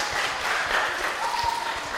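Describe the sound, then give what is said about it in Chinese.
An audience at a Buddhist teaching session applauds before a song, with soft, steady clapping throughout. “有没有先鼓掌一下？”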